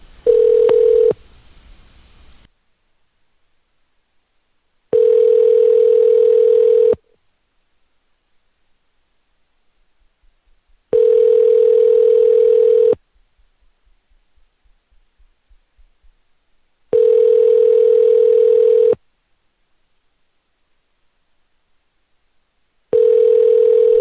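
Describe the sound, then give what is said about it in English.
Ringback tone on an outgoing telephone call: a steady, mid-pitched hum-like tone repeats in long even pulses with regular silent gaps, loud and alone. “It's a very spooky phantom ringing.”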